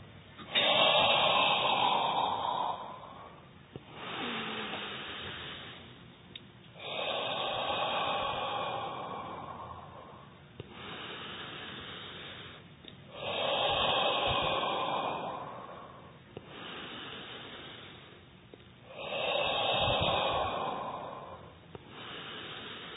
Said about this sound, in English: First, exhale from the mouth. Slow, long, slow, and inhale from your nose. We'll count 10 times.